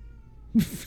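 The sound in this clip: A cat lets out a single short, loud meow with a slight waver. The room is quiet around it.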